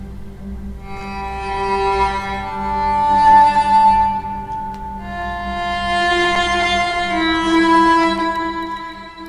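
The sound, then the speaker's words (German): Melancholic background music from a video game about a father and daughter fleeing through the desert plays on its own. Slow, sustained melodic notes drift over a low steady drone, gently swelling and easing off. “Klingt schön, aber auch ziemlich schwermütig, die Musik.”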